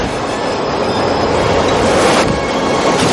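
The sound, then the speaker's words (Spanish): A subway train arrives at a platform in a film scene and runs a man over. A loud, continuous rolling roar carries a high metallic wheel squeal throughout. “El tren atropella a Smith.”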